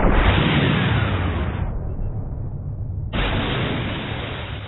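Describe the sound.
A warship returns fire and hits an enemy ship in a sea battle. Two loud, dense, rumbling blasts sound: the first is sustained and tails off, and the second bursts in abruptly after a short lull.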